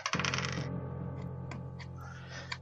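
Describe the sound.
Dice clatter onto a surface in a game, with a quick burst of rattling at the start and a faint click near the end, over a steady tonal hum.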